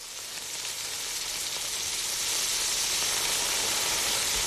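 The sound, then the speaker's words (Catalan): Loud sizzling of a frying pan on the fire as a potato omelette cooks, a dense, bright hiss that holds steady and swells slightly louder partway through, with no talking. “I no és pluja, que ens havien dit que avui plouria i la veritat és que no està plovent massa. És el soroll d'una paella al foc, perquè avui és el Dia Mundial de la truita de patates”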